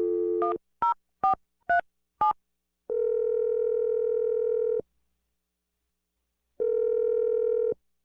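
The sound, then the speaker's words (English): Telephone dialing: a brief steady tone, then five short keypad beeps in quick succession, followed by two long steady tones separated by a silent pause, with no voices. “Well, I'm going to dial Melanie's number right now.”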